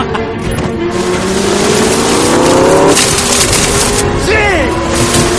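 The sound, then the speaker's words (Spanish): Loud, roaring car engines rev and surge during a film car chase in which one car rams a Ferrari diagonally from behind, the heavy engine noise sustained and building through the scene. “Cortés le dice, se coloca detrás de Rey y colisiona con él en diagonal. Cortés se lleva por delante al Ferrari que queda atravesado encima del capó.”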